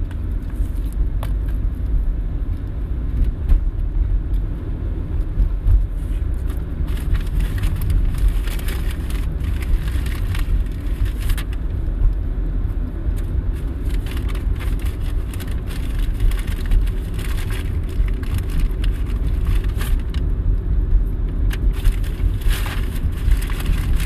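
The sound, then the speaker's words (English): A car on the move: steady low engine and road rumble with a faint, crackly texture runs evenly throughout, and no one speaks. “Hearing me drive, I don't really have much to talk about.”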